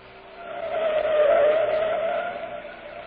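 Car tires squeal as the car takes a corner. A sustained tonal screech swells and then fades over about three seconds above a broad engine and road roar, with no talk.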